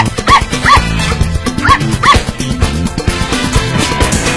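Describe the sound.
A pet dog barks in short, high-pitched yips that come in two quick pairs early on, over a busy low rhythmic rumble that continues throughout.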